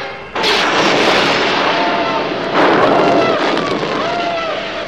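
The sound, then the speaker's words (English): Laser weapons firing as stormtroopers storm a rebel cruiser in a space battle: a dense, continuous noisy roar that surges loudly twice, threaded with thin whining tones, with no voices. “In moments, Imperial stormtroopers invade the rebel craft with a blaze of laser weapons.”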